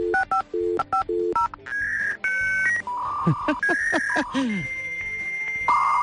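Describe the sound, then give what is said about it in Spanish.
A dial-up internet modem connects: a rapid string of dialing beeps gives way to ringing tones, then warbling, chirping handshake screeches and hissing, loud throughout. “Efectivamente, es el sonido del router. Igual te recuerda cuando tu hijo estaba navegando por internet y tú querías llamar por teléfono”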